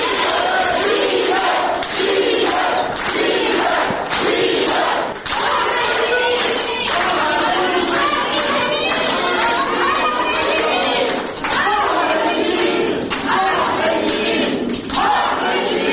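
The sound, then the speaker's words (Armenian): Supporters give a standing ovation in a courtroom as defendants are brought in: loud, continuous crowd noise of dense clapping mixed with shouting and chatter, with heavy thumps throughout. “Մոտ 1 տարի անազատության մեջ գտնվող Ժիրայր Սեֆիլյանին, այս գործով անցնող Գևորգ Սաֆարյանին, Ներսես Պողոսյանին, աջակիցները, ընկերները հոտնկայս բուրըն ծափերով դիմավորեցին։”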